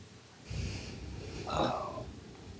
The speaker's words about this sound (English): Stay with that breathing in,